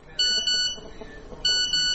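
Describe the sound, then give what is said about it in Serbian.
A phone's text-message notification beeping early in the morning, four bright, high electronic tones in two pairs separated by a short pause, fairly quiet over a low background hum. “Budi me poruka.”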